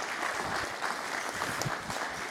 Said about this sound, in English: All right, big round of applause. Come on for Dallas.